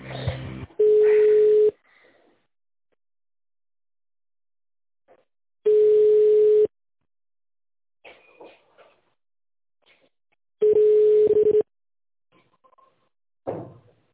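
Telephone line tone during a call transfer: three long, steady single-pitch beeps, evenly spaced with silent gaps, and faint clicks and rustles between them.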